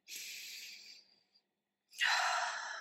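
A deep breath is drawn as two long, airy breath sounds separated by a short silent pause, soft and breathy, with no talking.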